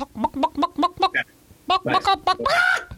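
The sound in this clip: A person's voice imitates a talking chicken, giving a rapid string of clucking syllables, a brief pause, then more clucks that end in a longer, drawn-out squawk.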